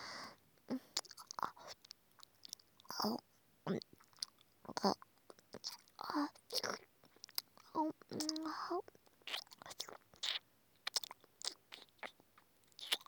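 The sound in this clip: Crunchy chewing and biting of very hard food, many irregular crisp crackles and snaps close up, with some soft whispering mixed in.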